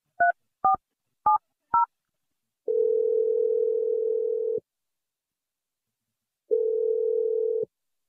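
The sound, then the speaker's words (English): Telephone keypad tones as a call is dialed: four short dual-tone beeps, then two long, steady ringing tones separated by silence, with no voices. “Here we go. I'm going to dial her number right now.”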